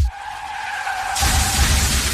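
Car tires skid toward a crash in an ad sound effect: a loud, sustained tire screech, then a broad, noisy roar that grows louder and takes over midway.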